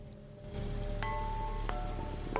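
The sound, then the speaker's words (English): Rain falls on a rooftop in Nagasaki under a grey sky. It makes a soft, steady hiss that swells slightly after a brief quieter start and then continues evenly and faintly. “A man walks along a rainy rooftop.”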